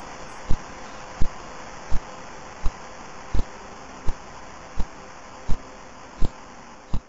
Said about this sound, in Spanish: Por ejemplo, un pulsar llamado PSR-B0329, que es el más brillante del hemisferio norte, pulsa una vez cada 0.7145 segundos y suena así.